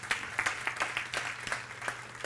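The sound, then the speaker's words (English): Scattered clapping from a church audience, a thin crowd of irregular hand claps at moderate volume with no voices over it. “You can clap for that.”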